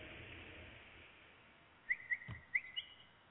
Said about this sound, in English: hear those birds chirping. I love those birds. They're singing to God.